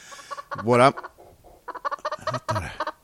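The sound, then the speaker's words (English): A chicken clucks in a run of short, choppy bursts, with a louder, drawn-out squawk early on and another near the end. “I did hear that chicken.”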